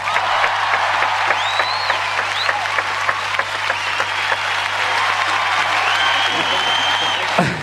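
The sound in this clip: Audience applause, a dense, steady clatter of many clapping hands with whistles rising above it, holding level for about seven seconds before cutting off abruptly.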